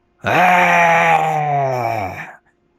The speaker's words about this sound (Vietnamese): Con thú há miệng gầm lên